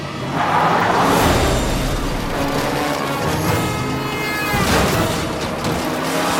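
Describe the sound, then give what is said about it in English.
A drunk driver's car skidding wildly on an isolated highway toward an oncoming vehicle, heard as a loud, sustained roar and rumble with grinding noise and brief screeching tones, and no talk. “He skids wildly toward a lone oncoming driver, nearly creaming the motorist head on.”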